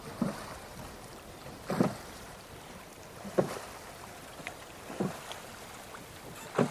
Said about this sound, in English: And the only sound that can be heard here is me rowing.